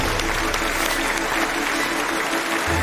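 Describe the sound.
Audience applause welcoming two physics researchers to a lecture stage: dense, steady clapping fills the whole stretch at an even, fairly loud level.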